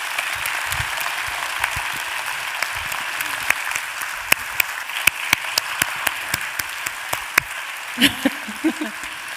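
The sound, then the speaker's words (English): Audience applause welcoming author Gabrielle Zevin to the stage at a book event: dense, sustained clapping that fills the whole stretch, with sharper individual claps standing out toward the end. “Would you mind putting your hands together to welcome Gabrielle Zevin to the stage?”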